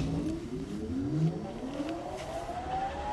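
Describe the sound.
An aluminum pipe cutting machine starts up with a continuous motorized whine that climbs steadily in pitch as it spins up, over a constant rumbling hum that stays fairly loud throughout.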